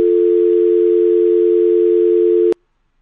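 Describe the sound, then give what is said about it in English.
A hearing test tone played in one ear, a single steady low pure tone held for about two and a half seconds, ending with a click and then silence. “Hello, blind spot hearing test. Can you tell me which ear you heard the tone in?”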